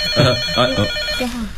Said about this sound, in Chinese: 电话。